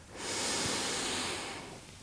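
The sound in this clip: A slow breath drawn in while the shoulders are raised during a guided relaxation exercise: one steady, airy hiss that swells quickly, holds for over a second, then eases off.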